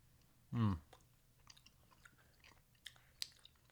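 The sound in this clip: Chewing a soft, squishy orange mango gummy with spices in the middle: a brief voiced hum, then faint, sparse moist clicks and squelches of chewing, quiet throughout.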